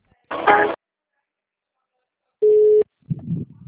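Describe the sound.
A telephone line tone sounds while a call is being transferred to an agent: a single steady, mid-pitched beep sits between short bursts of noisy line sound, with silence in between.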